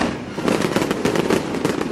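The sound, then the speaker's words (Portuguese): Firework rocket sound effect: a dense, continuous crackle of many sharp bursts over a roaring hiss, loud and steady throughout, with no voices. “Manda rojão pra esse povo lá do Jonatas.”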